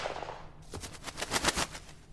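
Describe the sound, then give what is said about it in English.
Gunfire: a rapid volley of many sharp, loud gunshot reports in close succession, like automatic fire, with no voices. “I always use a gun. Right in the forehead.”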